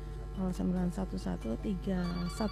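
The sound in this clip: A telephone ringing with a call coming in on a call-in phone line: repeated short tonal pulses in a quick pattern over a steady low hum.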